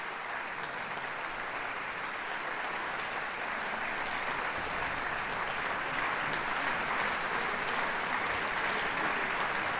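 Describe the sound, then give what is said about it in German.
Sustained applause from a concert audience for an orchestra and its conductor after a live performance at the Philharmonie: dense, even clapping that holds steady at a strong level for the whole stretch, with no voices standing out. “Voilà, viel Applaus wie gesot. Fi den Orchester an den Dirigent”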